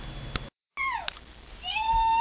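A pet cat meows while a child shakes it at home. Two short, fairly loud cries come with a brief dropout between them; the first falls in pitch and the second rises.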